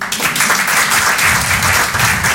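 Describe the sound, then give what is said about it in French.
Steady, loud applause from an audience, dense clapping that continues without a break at a fairly even level. “Applaudissez ceux qui ont fait du caté.”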